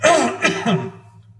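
Someone clears their throat during a church sermon, in three rough, voiced bursts that are loud at first and then trail off.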